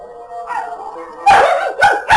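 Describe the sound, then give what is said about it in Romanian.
Wolves howl in the wild, heard as drawn-out, wavering tonal cries. These are followed by a few loud, rough bursts that sound like yelps or barks, with no talking. “Lupi! Sunt urlete de lupi!”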